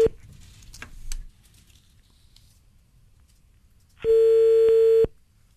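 A telephone call being placed: faint clicks and rustle, then a quiet stretch, then a single loud, steady electronic ringing tone lasting about a second before it cuts off.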